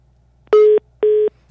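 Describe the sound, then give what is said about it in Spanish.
A telephone busy tone sounds after a dropped call: two identical, steady beeps at one mid pitch, evenly spaced with silence between them. “Bueno, lo vamos a resolver. Se nos cortó la llamada. Se nos cortó la llamada 8 con 34 minutos.”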